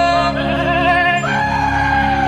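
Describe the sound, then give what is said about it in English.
Goats bleat in a loud, continuous, wavering cry whose pitch shifts partway through, with no talk. “What is happening? This is Dex's goat friends.”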